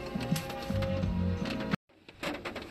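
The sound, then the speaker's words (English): Tarot cards are drawn from the top of a deck with crisp, papery rustling and flicking. The busy crackling texture breaks off briefly near the end, then resumes. “I'm going to go ahead and pull the first four cards from the top of the deck”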